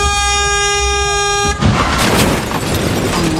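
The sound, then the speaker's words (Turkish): Car horns honking in warning at a traffic accident involving an empty runaway car and a pickup truck. A steady, loud horn tone holds for about a second and a half, then gives way to dense, broad noise. “Çevredekiler bağırarak ve korna çalarak vatandaşları uyardı.”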